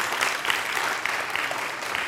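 A church audience applauds to welcome first-time visitors, with dense, even clapping filling the whole brief moment.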